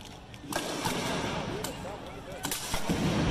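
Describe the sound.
Police gunfire aimed at people in the streets: several sharp, irregularly spaced cracks ring out over a rumbling background, with people's voices audible between the shots.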